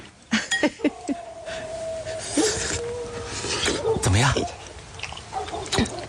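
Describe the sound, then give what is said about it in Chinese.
Someone eating lamb saozi noodles makes faint, irregular chewing and mouth sounds. A few sharp clicks are scattered through it. “我做了你最爱吃的羊肉臊子面，你尝尝。”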